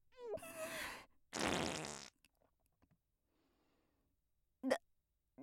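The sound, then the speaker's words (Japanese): A woman's farts in a stuffy closed room: two drawn-out, raspy blasts in quick succession, then a pause and a short, sharp final one. “大丈夫？密室でムシムシしてるのにおばさんのおならでもっと蒸し暑くしちゃって。”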